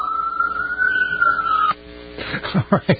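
Police car siren wails as a high, sustained tone that rises slightly, eases down, then cuts off abruptly after under two seconds, followed by a few brief softer sounds.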